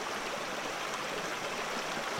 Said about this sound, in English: Magic along the Huatulco River. Because there's magic here, without any doubt. Maybe we can find it in the conversation between water and stone.